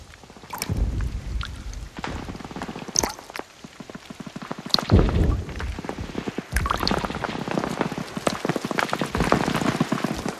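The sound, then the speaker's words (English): Heavy rain falling onto a pond and broad leaves, a dense steady patter of fat drops broken by irregular louder spatters and splashes as the downpour builds, with no voices. “Later, it begins to rain. Fat, heavy drops spread ripples in a pond, and broad leaves darken with a spatter as the downpour increases.”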